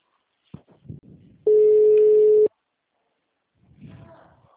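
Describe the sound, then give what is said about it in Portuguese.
A telephone ringback tone sounds as one steady, mid-pitched beep lasting about a second, with faint handling noises before and after it. “Ah, agora chamou, meu telefone chamou.”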